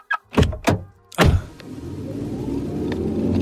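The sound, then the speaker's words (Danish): An electric car: three heavy door thunks in quick succession, followed by a steady low motor hum with a faint whine that slowly grows a little louder. “En elbil. Ja, det kan du godt høre. For du skal ud og køre.”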